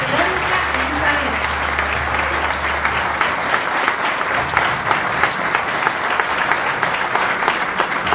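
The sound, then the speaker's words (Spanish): Sustained applause from an audience at an event where officials are introduced one by one. The clapping is a dense, steady clatter that continues without pause from start to finish. “Fuerte los aplausos”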